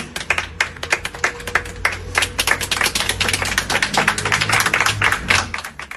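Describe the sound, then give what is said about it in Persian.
An audience claps at a commemoration for people killed in Iran's protests, with many sharp, separate hand claps in an uneven, lively pattern that keeps going for the full six seconds. “دست بزنید به افتخار خودتون”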